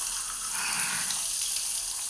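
A shower running steadily, a continuous dense hiss of spraying water with no change in strength and no voices.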